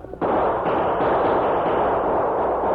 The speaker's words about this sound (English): Open fire.